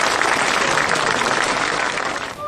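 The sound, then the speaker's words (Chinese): Loud, dense applause from an audience at a class session, welcoming a teacher who is about to give a poetry recitation. The clapping stays steady throughout and only thins slightly at the very end. “我们掌声有请”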